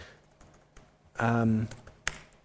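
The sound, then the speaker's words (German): Sparse keystrokes on a computer keyboard as code is written, a few faint scattered clicks with a brief voice in between. “And hier schreibe ich ein bisschen Logik. Ich bin schlechter Programmer, wie Sie sehen.”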